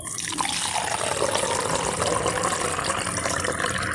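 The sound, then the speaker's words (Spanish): Coffee pours in a steady, unbroken stream of liquid that splashes and gurgles for about four seconds, with no other sounds. “Así cuando va cayendo el café.”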